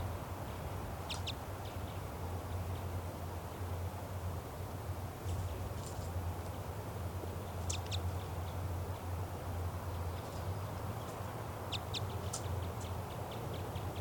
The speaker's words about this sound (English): And the female flew off and she's perched in a tree nearby, now calling back and forth to 395.